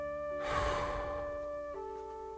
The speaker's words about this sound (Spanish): Respira profundo. Sostiene. Exhala.